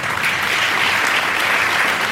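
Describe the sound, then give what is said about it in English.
Audience applause, dense and even clapping that stays at a constant loud level from start to finish with no voices over it. “why clap? The sheep not applauding.”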